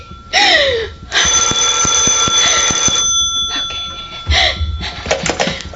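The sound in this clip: A telephone rings with a loud, bright, sustained ringing that runs almost the whole time, with a short break near the end before it resumes.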